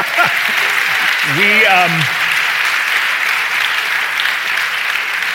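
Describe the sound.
A live studio audience applauds in a dense, steady wash of clapping, with a voice speaking briefly over it near the start.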